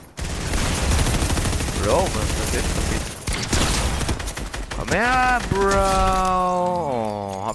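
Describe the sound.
Rapid bursts of automatic gunfire ring out in the video game Fortnite, dense and loud for the first few seconds. Other game sounds follow, and people talk.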